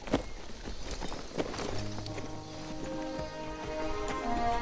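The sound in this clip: Horse hooves clip-clop irregularly as a horse moves off, a few sharp hoof strikes standing out at moderate level beneath sustained music.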